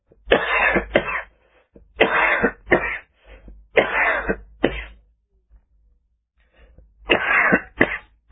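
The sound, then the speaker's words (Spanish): Painful coughing from an unwell person with a freshly stitched wound: four pairs of harsh, rough coughs, each a quick double burst, separated by short pauses and a longer gap before the final pair. “Toso y me duele mucho.”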